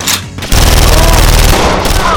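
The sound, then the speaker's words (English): Steady barrage of gunfire from an enemy force in a battle: after a quieter first half-second, dense, loud shots merge into a continuous roar that holds without a break to the end. “The Reds had at least half their force left and were continuing a steady barrage of fire”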